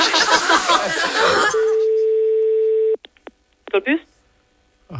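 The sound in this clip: A telephone ringing unanswered: one steady, even tone lasting about a second and a half follows a louder burst of other sound, then a few brief clicks and short tonal blips.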